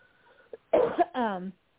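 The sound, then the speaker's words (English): A person coughs: a small catch, then a harsh, noisy burst, followed by a brief voiced throat sound. “No, excuse me, I've been coughing.”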